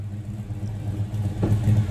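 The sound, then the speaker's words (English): A Ford Mustang engine rumbles low and steady in a video, swelling louder toward the end. “That car's dope. All right. It's starting well. A little Mustang.”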